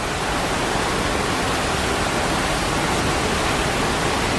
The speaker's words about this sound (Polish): wystarczy 5-minutowa przerwa z emisją takiego właśnie dźwięku, dźwięku wodospadu